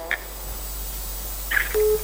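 Telephone line tones of a caller connecting to a radio phone-in: two brief chirping tones separated by a pause, then a steady, lower beep held for a moment.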